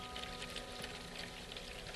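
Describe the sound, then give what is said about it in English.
Water is poured in with detergent, making a faint, steady, even splashing hiss without breaks and without any voices. “and some water. Put a little water in there.”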